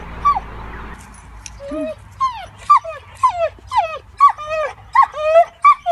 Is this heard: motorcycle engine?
no